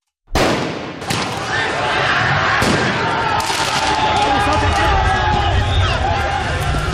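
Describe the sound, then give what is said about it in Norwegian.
Crowd noise from football riots in France after Paris Saint-Germain's Champions League win: a dense, loud roar with shouting voices, broken by a few sharp bangs like fireworks or shots. “Dette er lyden av omfattende fotballbråk i Frankrike i går kveld og i natt.”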